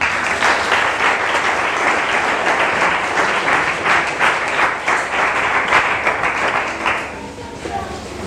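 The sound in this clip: A church audience claps and cheers in praise of God: dense, continuous clapping mixed with voices, easing off near the end.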